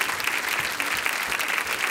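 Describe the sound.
Church audience applauding to welcome a guest speaker: dense, even clapping that holds at a steady level through the short stretch.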